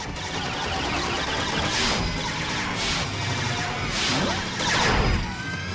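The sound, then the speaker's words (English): Glowing red laser beams shot from a robot's eyes zap and ricochet off a gold badge on a hat across a rooftop. A loud, dense rush of whooshing, crackling energy is broken by several brighter bursts. “He shoots glowing red lasers from his eyes, which bounce off the gold Royal Mail badge on Pat's hat. Pat and Jess watch as the laser deflects all around the roof.”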